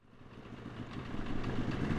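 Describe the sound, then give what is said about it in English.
A snowmobile drives over soft, slushy snow in warm sun in the Wind River Range, Wyoming. Its rough, mid-pitched engine drone grows steadily louder over two seconds, with no talk. “The snow turns to mush in the warm sun under our snowmobile tread.”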